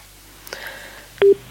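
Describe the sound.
A telephone is dialed, giving short electronic tones: a sustained two-pitch beep followed by a brief, louder tone.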